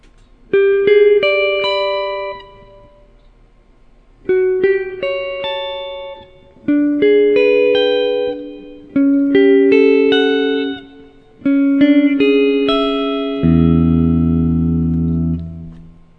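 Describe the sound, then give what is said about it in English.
Guitar with spacey effects arpeggiating a chord progression of open, undefined harmony: several rolled chords ring out one after another, each note blooming with reverb, before a low sustained chord closes the passage. “Let's arpeggiate those chords so you can hear them a little better.”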